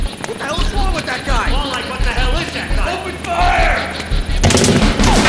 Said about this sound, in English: Jason charged at the invading SWAT team, letting their bullet fire ricochet off the device he held while other shots penetrated his legs and arms.